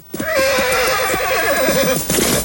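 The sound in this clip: A horse whinnies loudly while rearing up, one long, continuous neigh with a shaky, wavering pitch that holds steady and dips slightly near the end, heard alone with no voices.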